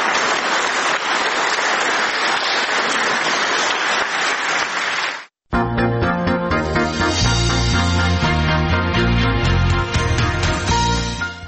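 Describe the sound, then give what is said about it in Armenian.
Enthusiastic applause after a speech fills the first five seconds with thick, continuous clapping. It cuts off abruptly, and after a brief silence, music with steady tones and rhythm begins. “Տեսագրությունից պարզ չէ, արդյոք ներկաները նրան հարցեր են ուղղել կամ դիտարկումներ արել, բայց ելույթն ընդունել են բուրըն ծափահարություններով։”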